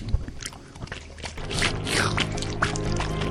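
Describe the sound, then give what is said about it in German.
Squelchy, watery slime sounds, like liquid being poured and dripping, forming a continuous wet churning with a few sharper splashy bursts and no voices. “Und diesen Slime macht diesen Geräusch.”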